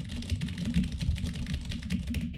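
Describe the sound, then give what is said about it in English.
Rapid, heavy typing hammers a computer keyboard in a dense, continuous run of clacking keystrokes, with no voices. “it sounds like he's taking a sledgehammer to like a metal bar when he types. What, you mean like this?”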